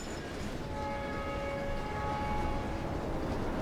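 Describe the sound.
A train passes with a steady, even rumble that holds at the same level throughout, with faint whining tones above it and no voices.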